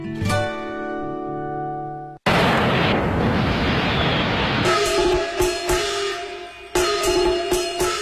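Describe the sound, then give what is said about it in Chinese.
Fireworks and firecrackers burst at Spring Festival, a dense roaring crackle that starts abruptly after a sustained musical tone, followed by sharper repeated pops over music. “烟花灿灿，爆竹声声”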